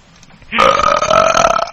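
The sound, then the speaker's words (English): A single long, loud burp that rumbles on for over a second with a steady, throaty voiced tone and no talk over it. “Who just rifted? What? Did you just rift? Oh, burp, sorry.”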